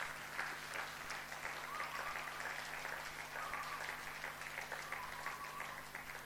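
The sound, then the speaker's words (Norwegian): Audience applause for a group of performers at a church gathering: soft, continuous clapping from many hands, steady and dense for the whole stretch with no voices standing out. “Skal vi gi en applaus til de gutta her?”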